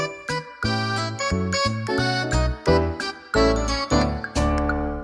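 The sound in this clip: A bright, bell-like notification jingle marks an incoming message, playing a quick run of many chiming notes on its own.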